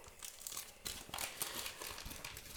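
Wrapping paper crinkles and tears as a wrapped gift is opened, a soft, continuous rustling with scattered sharper crackles and rips throughout, fairly quiet.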